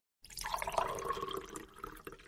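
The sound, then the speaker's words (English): A little coffee being poured out makes a faint, continuous splashing trickle. It starts abruptly after a brief silence and runs steadily before easing off near the end. “We'll pour a little coffee out for Proxmox.”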